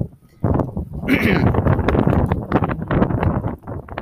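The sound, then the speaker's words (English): Strong outdoor wind buffets the microphone in a constant rough roar, and a person talks underneath it throughout. “the wind is, like, really bad today, guys. I mean, it's super bad out here in our studios. And I wish God would make it quit being so bad.”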